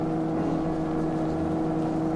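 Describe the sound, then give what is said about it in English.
Steady whirring drone of an electric mole vehicle racing underground, a radio drama effect; the rumble holds at a constant level throughout with no pauses and no voices. “racing underground toward the palace of Ming the Merciless in their electric mole”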